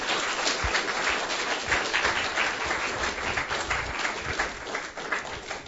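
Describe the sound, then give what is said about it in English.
Audience applause for a guest speaker at a Commonwealth Club of California meeting: dense, steady clapping from a crowd, sustained without a break throughout. “Thank you very much, Dr. Singh. Please, let's give Dr. Singh a hand.”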